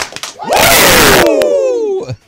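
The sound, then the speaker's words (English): Two quick claps, then a group of voices letting out a long, loud wrestling-style 'woo' that slides steadily downward in pitch before cutting off, followed by a brief breathy sound at the end. “Can I get two claps and a Ric Flair, please?”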